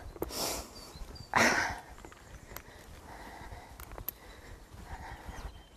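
Hooves of a pony walking out on its first solo hack, with a few light, scattered clip-clop hits and a couple of louder breathy bursts near the start over quiet outdoor background.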